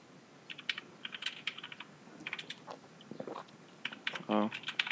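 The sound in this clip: Typing on a computer keyboard as a command is entered: many quick, light key clicks in irregular bursts, with a brief voiced sound near the end.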